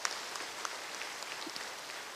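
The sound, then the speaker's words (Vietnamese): Applause from an audience at a three-day anniversary ceremony of a Buddhist academy: a steady, soft patter of many hands clapping, faint and even throughout, with no speech. “Cho một tràng vỗ tay tán dương.”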